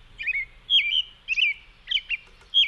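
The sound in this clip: Robin song: a sequence of about five bright, high, warbled phrases separated by short gaps, moderately loud, with no voices and only a faint low rumble beneath.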